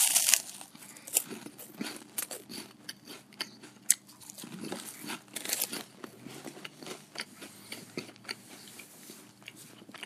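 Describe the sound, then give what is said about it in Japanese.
Someone eats a crunchy corn puff snack stick, producing many sharp crunches and bites with irregular chewing in between, fairly faint and without talk. “ちょっとごめんなさい。うまい棒を食べさせてもらいます。”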